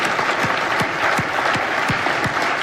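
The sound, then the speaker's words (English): Church audience applause welcoming new believers into the faith, with sustained, loud, even clapping and a few deeper thumps scattered through it. “Let's give these who just put their faith in Christ a hand. Let's welcome them into the family of God.”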